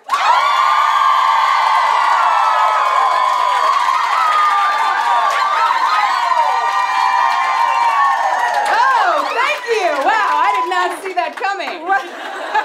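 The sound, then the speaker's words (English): A live stage-show audience greets the performers with loud, sustained cheering, whooping and high screams that later break up into scattered shouts, laughter and chatter. “So could you make the noise that you would make if we were coming onto the stage for the first time?”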